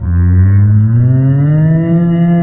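A cow moos loudly in one long, sustained, low-pitched call that holds steady with rich tonal overtones throughout, with no other sounds around it.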